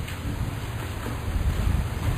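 Rain falls steadily, making a continuous, even hiss with a soft low rumble underneath and no clear breaks or individual drops. No voices are heard.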